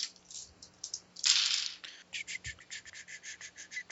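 Eight dice are rolled for a tabletop game: a faint rattling burst, then many quick, light clicks and clatters as the dice tumble and settle.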